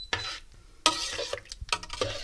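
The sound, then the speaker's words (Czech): A spoon stirs a vanilla pudding mixture, pudding powder mixed with water, in a pot, producing a few irregular scraping, swishing strokes of moderate loudness with short pauses between them and no talking. “rozmícháme vanilkový puding v hrníčku vody a tu vanilkovou směs nalejeme do hrnce a povaříme.”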